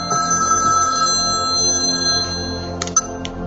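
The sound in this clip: A mobile phone ringtone for an incoming call plays as a steady electronic tonal pattern throughout, with a few short clicks near the end and no speech.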